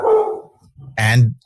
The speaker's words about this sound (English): the real dogs in the background.